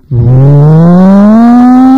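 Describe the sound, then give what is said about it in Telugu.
A car arriving on a road, its engine note climbing steadily in pitch for about two seconds, loud and alone after a brief quiet start. “చాలాసేపు అయిన తర్వాత ఒక car వచ్చింది.”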